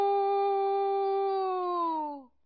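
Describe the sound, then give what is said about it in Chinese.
A person imitates a rooster crowing while pinching the nose, giving one long, nasal, steady vocal call held for about two seconds that slides down in pitch as it fades out. “门客当中又有一个惯偷出事的人在关前捏着鼻子学起了鸡叫。”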